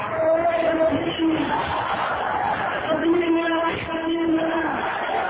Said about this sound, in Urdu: نعروں کا وقت نہیں ہے, نعروں کا وقت نہیں ہے, میری بات سنیے.